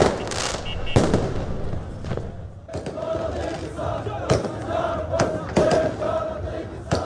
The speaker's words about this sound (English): And here are the sounds of celebrations in the capital, Baghdad, on Wednesday night.